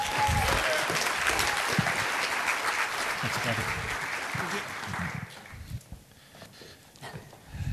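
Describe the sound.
Audience applause welcoming two speakers at a testimony event: dense, steady clapping for about five seconds, then thinning out into a few scattered claps.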